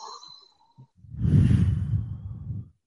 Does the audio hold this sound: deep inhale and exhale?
yes

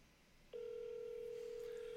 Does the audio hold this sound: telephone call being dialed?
yes

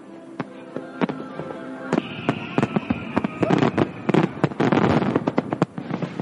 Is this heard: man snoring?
no

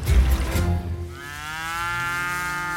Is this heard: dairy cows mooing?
yes

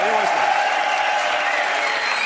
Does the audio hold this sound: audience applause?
yes

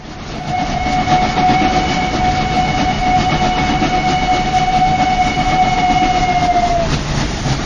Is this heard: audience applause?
no

